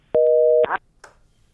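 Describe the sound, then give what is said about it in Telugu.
A telephone busy signal on a call-in line: one steady, two-toned beep lasting about half a second, followed by a short burst of faint noise. “Lines అన్ని బిజీగా ఉన్నట్టున్నాయి. Callers అందరూ కూడా ఒకేసారి మాట్లాడేద్దాం try చేస్తే calls lines ఇలానే busy అయిపోతూ ఉంటాయి.”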